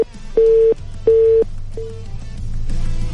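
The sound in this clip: Busy signal after a dropped phone call: a steady low-pitched tone pulsing on and off in even beeps, with three clear pulses, the last one fainter and shorter, over a low background hum.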